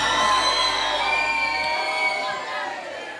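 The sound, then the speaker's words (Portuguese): A crowd of northeastern Brazilian fans at a live concert shouts and cheers, a dense, loud roar of many voices that holds steady and then gradually thins toward the end. “Cadê o grito dos meus nordestinos?”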